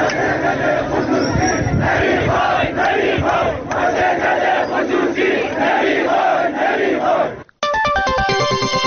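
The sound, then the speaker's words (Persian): A dense, loud crowd of factory workers shouts in protest against the privatization of their production company. The roar is sustained and overlapping, then cuts off abruptly and gives way to a brief run of stepped electronic tones. “سایت باشگاه خبرنگاران جوان نیز در این مورد فیلمی از اعتراض کارگران این شرکت به خصوصی سازی این واحد تولیدی را پخش کرد که بخشی از آن را می‌شنوید”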